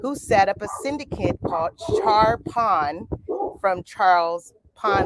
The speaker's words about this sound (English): You got to excuse the dogs because I'm live and loud and direct to you.